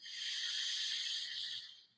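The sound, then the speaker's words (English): A slow, exaggerated breath drawn in through the nose makes one long, steady airy hiss that holds for most of the two seconds and then tapers off at the end. The breath is soft and sounds alone. “take the slowest, most exaggerated breath in through your nose.”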